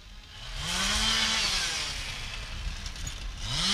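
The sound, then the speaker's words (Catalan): Chainsaws run as workers cut trees beside a road. A continuous loud buzzing whine over a gritty rasp has revs that rise and fall in repeated sweeps. “Això que sentiu de fons són motoserres. Uns operaris estan treballant a peu de carretera per tallar els arbres.”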